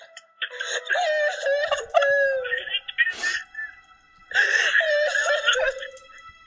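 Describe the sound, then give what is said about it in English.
Two people sobbing to each other on a phone call: wavering, high-pitched wailing cries in two long bursts, separated by a sharp breathy gasp, with shaky pitch throughout. “And they're both just sobbing to each other.”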